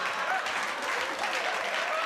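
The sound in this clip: An audience claps hands together, giving dense, steady applause that stays at an even, fairly loud level for the whole short stretch, with no single clap standing out.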